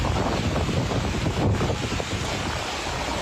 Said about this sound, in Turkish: Sağanak uyarısının yapıldığı Antalya'da da şiddetli rüzgar etkili oldu.